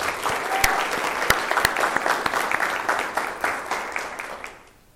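Audience applause at a meeting, thanking guests for being there. The clapping is dense and steady and fades out at the end.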